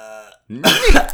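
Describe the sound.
A throat-clearing cough: a brief hum-like voiced tone, a short pause, then a harsh, rough burst of coughing and hacking that ends with a final short rasp.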